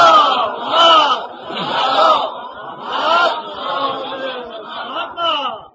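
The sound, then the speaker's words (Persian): A crowd chants a salawat in unison after a religious talk, many voices joining in loud, sustained phrases that swell and ease in a steady rhythm. “اگر خسته نشدید یک صلوات محمدی خط بفرمایید.”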